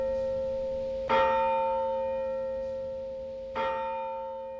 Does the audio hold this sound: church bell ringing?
yes

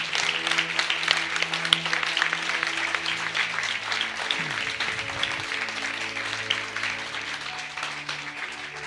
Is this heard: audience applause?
yes

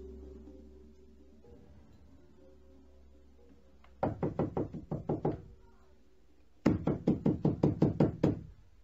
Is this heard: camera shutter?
no

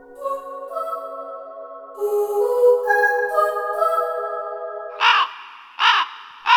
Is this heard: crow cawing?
yes

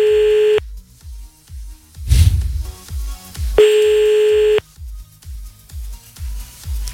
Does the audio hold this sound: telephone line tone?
yes

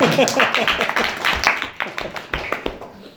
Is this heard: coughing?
no

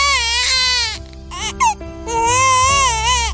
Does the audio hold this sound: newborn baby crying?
yes

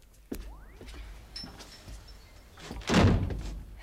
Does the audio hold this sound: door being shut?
yes

